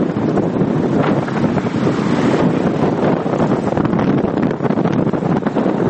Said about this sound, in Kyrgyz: Франциялык режиссердун киносун көрүп жатканыбызда сыртта мистраль башталды. Түндүктөн соккон бул шамалдын адамды да учуруп кетчүдөй күчү бар экен.